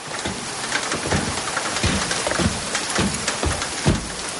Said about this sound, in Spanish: En el patio de la cárcel varios presos bajan de un furgón. Llueve.